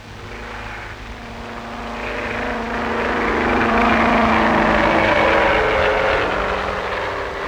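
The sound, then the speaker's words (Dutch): Airplane taking off after a tyre inspection: a broad engine roar that swells steadily louder over several seconds, peaks, then eases slightly near the end. “Aan de terugtocht van het vliegtuig gaat een inspectie van de banden vooraf. Zal de start even vlot verlopen als de landing?”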